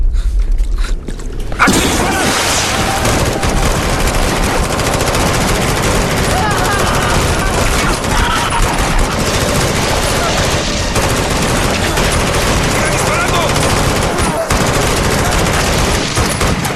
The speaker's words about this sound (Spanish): ¿Qué es esa maldita cosa? ¡Sigue viva! ¡Ya le disparé 100 veces! ¡No muere!